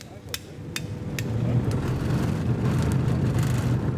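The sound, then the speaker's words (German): A Puma infantry fighting vehicle rolls up in a rainy forest. Its low engine rumble and drone swell from about a second in and then hold steady, after a few sharp knocks at the start. “Wenig später rollt ein Schützenpanzer Puma vor.”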